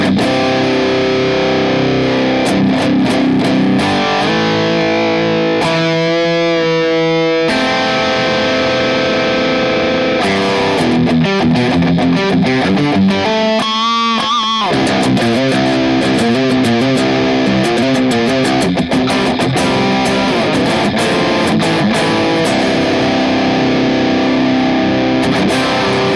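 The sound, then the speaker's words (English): A fuzz electric guitar played in stereo through a Boss IR-200 with a Celestion Greenback 4x12 impulse response. It plays thick, saturated chords and sustained notes, with short breaks between phrases. “So, our Boss IR 200 in stereo sounds like this.”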